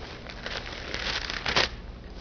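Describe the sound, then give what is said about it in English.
Paper Bible pages turned during a church sermon, heard as a few soft rustling, crinkling bursts over steady background hiss, the last burst slightly louder. “Turn over to 1 John chapter 2. 1 John chapter 2. It's in the back of your Bibles, about the fifth book before the end of the Bible.”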